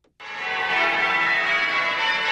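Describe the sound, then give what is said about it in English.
Church bells of Christchurch, Spitalfields in East London ring out as a dense, sustained metallic peal that starts abruptly and holds steady and loud throughout, with no pauses. “The bells of Christchurch, Spitalfields in East London. Back in the 18th century, they served as a giant alarm clock.”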